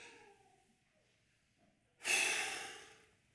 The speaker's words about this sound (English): Everyone take a deep breath.